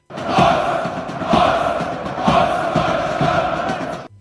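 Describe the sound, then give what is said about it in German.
A stadium crowd chants loudly, its massed voices swelling and falling in a regular rhythm about once a second, unbroken throughout. “aber es ist nämlich eine Aufnahme aus einem Stadion, aber auf einem AfD-SupporterInnen-Account auf TikTok wird behauptet, die Aufnahme kommt von einer großen Pro-AfD-Demo auf den Straßen.”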